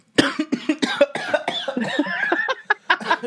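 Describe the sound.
Coughing fit from a person with something like a dust mote caught in the throat: many rough, loud coughs in quick, irregular succession, with short gaps between bursts and no speech.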